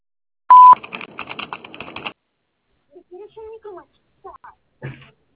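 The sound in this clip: A short, loud steady answering-machine beep sounding before a message is left, followed by a rattling stretch of rapid clicks and then a few brief, scattered voice fragments.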